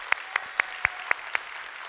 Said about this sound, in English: If you're here in person, if you would put your hands together, welcome in our online family here today.